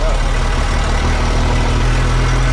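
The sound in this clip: A vehicle engine drones steadily while driving through a neighbourhood, a loud, constant low rumble with a broad hiss over it and no change in level.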